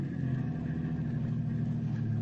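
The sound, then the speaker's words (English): A car engine rumbles low and steady throughout, a continuous deep drone with no change in pitch and no voices. “you had better stop the car here.”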